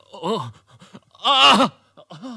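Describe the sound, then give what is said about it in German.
A wounded man groans in pain while doctors tend to him. A few drawn-out, voiced groans with wavering, bending pitch break out, the middle one loudest and strained, separated by quiet gaps. “weil dieser Mensch neben ihm so kläglich stöhnte?”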